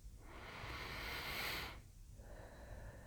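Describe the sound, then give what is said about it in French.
A deep breath drawn in, a faint, airy hiss that swells over about a second and a half and then eases off into quieter breathy noise. “Inspire profondément.”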